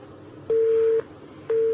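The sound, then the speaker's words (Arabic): Busy tone on a telephone line after a call is disconnected: two evenly spaced, steady mid-pitched beeps, each about half a second long, over faint background hiss. “قطع اتصال.”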